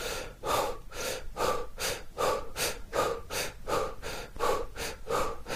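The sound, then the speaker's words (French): Fast breaths in and out during a rapid breathing exercise form a steady train of many strong, breathy whooshes, about two each second, with no talking. “Rapidement, on fait le même mouvement avec les mêmes respirations.”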